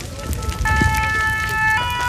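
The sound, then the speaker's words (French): A pine forest fire burns with renewed vigour, giving a loud, continuous roaring rush. A steady, high siren-like tone comes in partway through and stays over the noise. “Là il faut vraiment qu'on se dépêche parce que le feu, il a vraiment repris de la vigueur. Il y a encore quelques minutes, il était plutôt calme, mais là, la forêt de pins est littéralement en train de s'embraser.”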